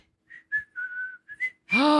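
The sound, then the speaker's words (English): A person whistles to imitate a strange, repeating whistle heard on a phone line. A few short, high whistled notes come in quick succession, some sliding slightly, and then a voice cuts in loudly at the end. “we heard whistling. What? Over and over again. It was like,”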